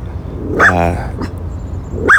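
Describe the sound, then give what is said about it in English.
Pet dogs barking indoors, a few sharp barks spread across the moment, with some speech mixed in. “Sorry, my dogs are barking.”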